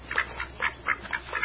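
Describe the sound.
Ducks quack in a steady series of about six nasal calls, fairly faint, with no talking.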